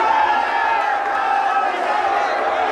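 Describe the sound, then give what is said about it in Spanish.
A crowd cheers and shouts as Gandhi leaves the courtroom dock after being freed on bail. The massed voices form a loud, steady roar that continues without a break. “Jaleado por su público, Gandhi deja el banquillo de acusados y se dirige a la salida.”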